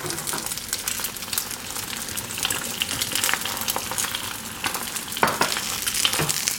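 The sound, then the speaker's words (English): Eggs fry in a pan of hot oil as more oil is drizzled over the whites, giving a steady, busy sizzle and crackle that stays loud throughout, with a few sharper spatters near the end. “So I wanna speed up the cooking of the egg whites by drizzling them with a little bit of this hot oil in the pan.”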